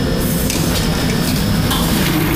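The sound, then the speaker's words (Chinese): Noodles stirred with chopsticks in boiling bone broth at a Macau street stall and lifted out to drain: continuous bubbling and splashing with faint clinks, loud and steady with no talk. “澳门街头沸腾的骨汤中，筷子把面条撩拨开，照例捞起沥干水分”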